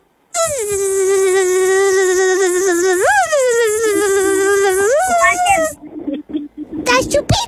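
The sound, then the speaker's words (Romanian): A voice imitates a mosquito's buzzing with one long, loud, steady buzzing hum of about five seconds that rises briefly in pitch twice, followed by a few short, fainter vocal sounds. “Așa, cum face... Țânțarul? Țânțarul face...”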